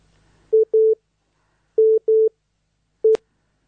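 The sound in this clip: Telephone line tones as a phone-in call connects: five steady mid-pitched beeps, heard alone. Two pairs come first, then a single beep that ends with a sharp click.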